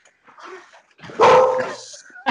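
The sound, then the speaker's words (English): A dog barking: softer yelping sounds give way to one loud, drawn-out bark, and a brief second bark comes in at the end. “The dog back there.”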